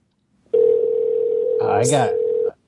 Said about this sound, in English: I like the part of the show where the phones ring.